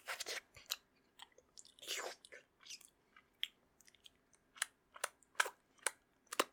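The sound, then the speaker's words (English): Someone eating food with crisp, crunchy chewing, many sharp bites and munches in irregular bursts that grow louder toward the end, with no talking. “Oh, that was delicious. Well, of course I already ate it all. It was so yummy, I couldn't stop.”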